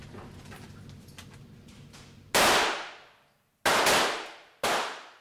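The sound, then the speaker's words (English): Gunfire at an indoor firing range: three loud, sharp shots, each followed by a long, fading ring, come after a quieter stretch of low background noise. “Ready on the right? Ready. Ready on the left? Ready. Commence firing.”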